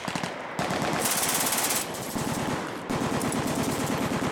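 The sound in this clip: Machine gun fire in a video game pours out as a long, dense stream of rapid shots, loud and almost unbroken across the whole stretch. No voices are heard.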